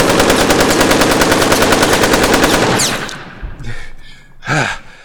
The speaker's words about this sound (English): A couple of those bullets ricocheted into my leg.